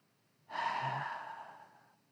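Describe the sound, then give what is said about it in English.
A voice imitates a dying person's last breath: one long, breathy exhaled sigh that starts suddenly, then slowly fades away into silence. “For those of you who have ever been with someone who has breathed their last breath, it sounds like this.”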